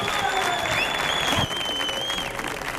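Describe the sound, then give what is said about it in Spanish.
Loud, dense applause fills a comedy show at the Auditorio Cartuja, a sustained roar of many hands with crowd noise, dipping slightly partway through and then carrying on. “Que está bien que lo escuche, pero mira lo que está disfrutando este público que suena de esta manera tan brutal.”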